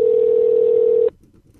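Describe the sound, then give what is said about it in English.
A telephone ring tone on a phone line sounds as a single steady, mid-pitched electronic tone lasting about a second, then cuts off abruptly. “I'm sorry about the ringing.”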